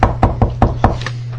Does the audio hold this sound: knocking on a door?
yes